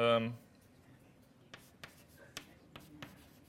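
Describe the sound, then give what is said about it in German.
Handwriting of an expression: after a brief spoken word, a few faint, sharp scratching strokes come at uneven intervals over a quiet background. “Ich schreibe ein drittes Mal hin.”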